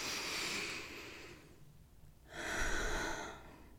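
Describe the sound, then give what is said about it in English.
A person takes a deep breath: a soft, airy inhale, a brief pause, then a long, slow exhale, with no talk over it. “Take a deep breath.”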